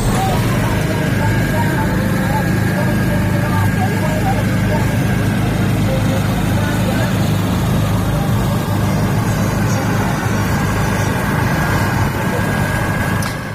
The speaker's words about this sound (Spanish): Esto que oyen es un motor en el parque temático para celebrar estos famosos tardeos en un parque infantil. Está instalado cerca de un parque infantil con mucho ruido,